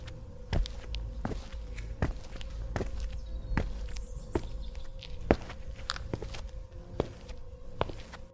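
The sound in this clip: Footsteps walking at an even, unhurried pace, a long steady series of soft thudding steps, fairly faint, with no talk over them.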